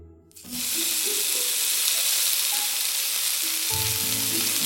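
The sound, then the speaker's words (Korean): Tofu frying in oil in a pan: a sudden onset of loud, continuous sizzling hiss that stays steady to the end. “프라이팬 위에서 기름과 만나면 더 고소해지고 따뜻한 김을 쐬면 부드러워지며 구수해진다.”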